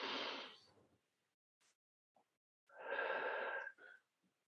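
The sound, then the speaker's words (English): Two deep breaths, each a long airy rush lasting about a second, separated by a quiet gap with a few tiny clicks; no talking. “So when we take a deep breath like that,”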